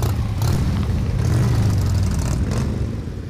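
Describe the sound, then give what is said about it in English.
Motorcycle engines rumble as bikers gather at an American Legion post outside Kalamazoo, Michigan, early on a Sunday morning for a charity ride. A continuous loud, low engine drone holds steady, then eases off slightly at the end. “At an American Legion post just outside Kalamazoo, bikers from across southwest Michigan made some noise on an early Sunday morning.”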